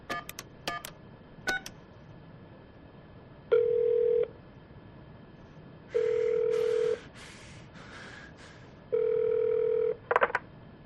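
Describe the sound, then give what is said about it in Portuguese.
A police officer dials the number from a card on a telephone: a few sharp clicks, quick bursts of keypad beeps and several long steady tones with pauses between them, with no voices. “Ele liga para o número do cartão.”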